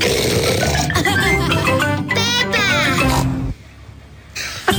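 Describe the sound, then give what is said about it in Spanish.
Voiced oinks and snorts from cartoon pig characters, a pig family in a children's cartoon, mixed with talking. Human voices imitate the pig sounds, loud and continuous, then quieter near the end. “Este cerdito es mi hermanito George. Ella es mamá Cerdita y él es papá Cerdito.”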